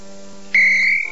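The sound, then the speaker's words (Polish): A phone ringing, heard as a single bright electronic tone that cuts in abruptly and holds steadily for about half a second before wavering off, over a quiet bed of steady low tones. “Dzwoni do mnie Bulma.”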